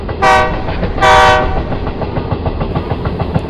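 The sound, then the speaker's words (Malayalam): A train arrives at a railway platform: two loud, blaring horn blasts, then a steady, rhythmic clickety-clack of wheels on the rails. “ഞാൻ പറഞ്ഞല്ലോ, വണ്ടി പ്ലാറ്റ്ഫോമിലേക്ക് എത്തി തുടങ്ങിയിരുന്നു.”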